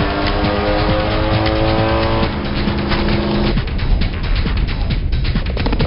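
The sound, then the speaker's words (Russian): Cars speed across the steppe chasing saiga antelopes, their engines roaring loudly and continuously. A whining, tonal engine drone gives way around the midpoint to a rougher, denser rush of motor noise, with no voices. “Но машины их быстро нагоняют.”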